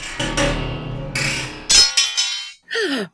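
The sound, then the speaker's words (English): A sword snaps in half in a fight, its blade caught by the chain of a swinging metal censer. A few loud, harsh metallic clangs and ringing crashes follow one another in quick succession. “You broke my sword!”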